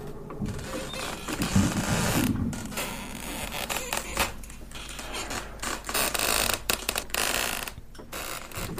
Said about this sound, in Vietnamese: Hai cái cánh cửa gỗ lúc nãy được lão tính đóng chặt cẩn thận, bây giờ lại rung lên, phát ra những tiếng lẹt cả lẹt kẹt, đến lạnh cả người.